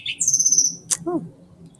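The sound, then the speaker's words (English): Call of an unidentified bird: a high, thin sustained whistle, then a brief sharp chirp and a lower buzzy note with stacked overtones, fairly faint over a low background hum. “I'm not sure what bird that is. It's a different call.”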